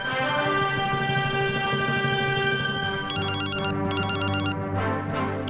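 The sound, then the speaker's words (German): A telephone rings for an incoming call, its bright electronic trill arriving in short repeated bursts over a sustained tonal background. “Ein Anrufer, der unsere Hilfe braucht.”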